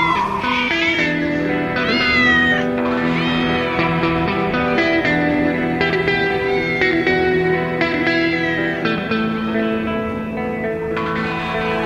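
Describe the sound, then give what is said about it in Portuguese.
Cat meowing on a prairie: a run of loud, drawn-out, high meows follows one after another with little pause, with an echoing, effect-laden tail. “Um gato na pradaria.”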